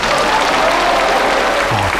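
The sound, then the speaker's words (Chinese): Audience applause welcoming a singer onto the stage: dense, steady clapping from a crowd that fills the whole clip at an even, loud level without a break. “大家掌声欢迎。”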